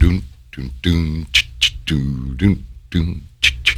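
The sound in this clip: A voice imitates the jungle birds and monkeys of an exotica record with warbling hoots and sharp, high squawks in a quick, irregular series.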